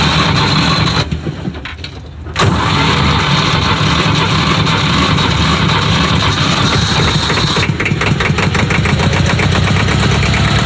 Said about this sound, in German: Das sind noch richtige Motorengeräusche. So hört sich ein Porsche Dieseltraktor an.